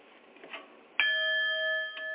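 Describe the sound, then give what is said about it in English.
A small bell struck once, a bright ding whose clear ringing tones hold steady for more than a second. Faint and heard alone. “bong, so to speak, a little sound bell to remind us to bring our thoughts back to the center”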